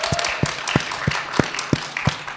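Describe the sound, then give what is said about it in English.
An audience applauds with a steady rhythmic beat, about seven strong, evenly spaced claps standing out over a dense patter of many hands. “can we give Liz a huge round of applause, please?”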